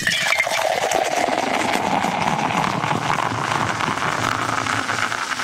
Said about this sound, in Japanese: この注ぎ音を収録したいと思います。ちゃんと綺麗に注ぎ音を収録したいと思うので僕と同じようにしてください。